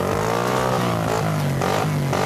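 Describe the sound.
Motorcycle engine revving in a steady, loud buzzing drone whose pitch wavers slightly up and down, heard alone without any talk.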